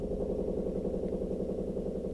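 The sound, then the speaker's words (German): Washing machine running a 60-degree wash, giving off a steady, even low droning hum with no breaks or changes in level. “Es ist eine 60-Grad-Wäsche. Ist aber auch beruhigend. Also ich hör's ja wahrscheinlich deutlich leiser als ihr jetzt gerade, aber ich finde, es ist so ein bisschen Meditation auch.”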